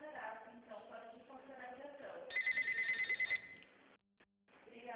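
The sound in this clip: A short warbling telephone ring on an outgoing call, a rapid train of high electronic pulses lasting about a second, preceded by muffled sound on the line and followed by a brief drop to near silence.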